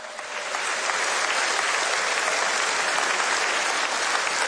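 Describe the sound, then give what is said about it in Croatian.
Festival audience applause for the performers, orchestra and backing vocalists at the Melodije Istre i Kvarnera song festival: dense clapping that swells in over the first half second, then holds a steady, even roar of many hands. “Sigurna sam da su svi naši izvođači, naš orkestar, naši prateći vokali zaslužili još jedan vaš pljesak.”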